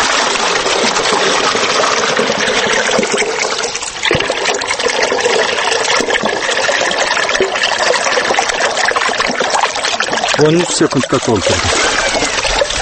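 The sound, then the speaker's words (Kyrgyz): Water from an irrigation channel at an orchard pours steadily into a 10-litre bucket, a loud continuous rushing trickle with voices talking over it. “багына канча суу айдап берээрин билүү үчүн аксакалдын багын аралай куурдун оозуна бардык. Бул челеңиз канча литр? 10 литр болсо керек. Көрөлү, азыр канча секундда толтурат экен?”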